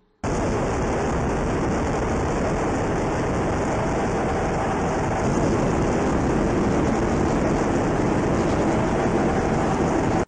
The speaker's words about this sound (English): here's the ambient noise inside the cockpit of an F/A-18 Super Hornet